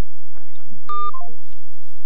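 Short electronic telephone tones from a call connecting: a steady tone that then steps down in pitch through a few shorter notes, brief and moderately loud.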